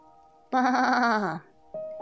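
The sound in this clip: A wild goat bleats: one loud, quavering cry lasting nearly a second, then a second bleat starts and is cut off at the end.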